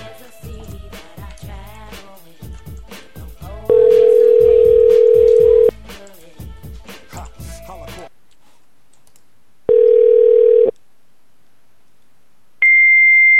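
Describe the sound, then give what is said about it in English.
Fax machine tones on a phone line: loud, steady electronic beeps, the first sounding over busy chatter and clicks, then a second low beep and finally a higher-pitched tone, three in all. “All right, it's definitely just a fax line. Sorry if anyone's speakers just exploded.”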